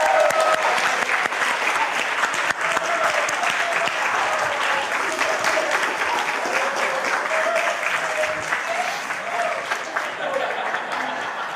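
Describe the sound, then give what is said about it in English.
A church audience celebrating an engagement applauds in a loud, continuous wash of clapping, with scattered cheering voices woven through it. “Fantastic. I think that is the appropriate amount of whooping.”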